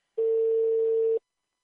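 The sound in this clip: A telephone dial tone as a call is placed: a single steady, mid-pitched electronic tone lasting about a second, clean and alone, then silence.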